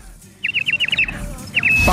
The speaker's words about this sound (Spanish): acá tenemos a los pajaritos, que es un clásico del centro.